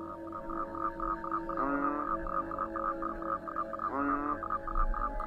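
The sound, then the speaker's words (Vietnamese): Frogs croak at night in a soft, steady chorus of rapid, evenly repeated pulses. Two louder, rising calls stand out against the chorus. “nghe thấy đâu đây có tiếng ếch nhái kêu ỉ oạc.”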